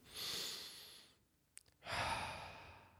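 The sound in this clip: A slow, deep breath in and out, taken as calming meditation practice: two long, airy breaths separated by a short pause, soft and with no talk.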